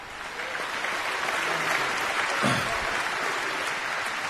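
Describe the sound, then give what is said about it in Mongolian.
Audience applause breaks out during a speech honouring the speaker's parents, a dense and steady wash of clapping that holds at an even level for about four seconds. “чи бүгдээ тэдэнд алга ташицгаая.”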